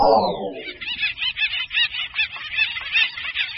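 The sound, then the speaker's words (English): Acorn woodpeckers calling while they fight over trees: a harsh opening call falls in pitch, then a rapid, rhythmic series of raucous squawking notes runs on steadily. “What you're hearing is war among woodpeckers, a species called acorn woodpeckers.”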